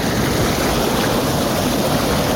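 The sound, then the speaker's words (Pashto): Water flowing along a stream bank, a loud, continuous rushing hiss that holds steady and never breaks. “د دې اوبو په غاړه، د اوبو په شړار کې، او په دې یخو هواګانو کې”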